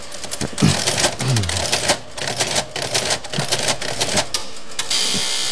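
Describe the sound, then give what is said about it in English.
Buttons pressed on a record-searching machine that outputs a card: rapid, irregular mechanical clicks and clattering over a steady whirring hum, with a few louder knocks. “Previously, I'd have to go through all the records, but now I just press these buttons.”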